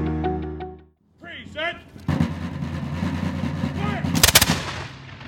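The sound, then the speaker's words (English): Rebel rifles fire at the annual Evacuation Day ceremonies at Dorchester Heights in Dorchester, a historical commemoration. Sharp, loud cracks burst out near the end amid crowd noise and people talking, after a steady low hum and a brief silence. “On March 17th, the sounds of rebel rifles and drums were heard at the annual Evacuation Day ceremonies at Dorchester Heights in Dorchester.”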